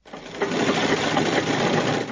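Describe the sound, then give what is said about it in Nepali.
A sewing machine stitching cloth with needle and thread for tailoring work runs in a loud, steady, continuous whir with a dense mechanical buzz and no voices. “सियो धागो र कपड़ा सिलाउने machine”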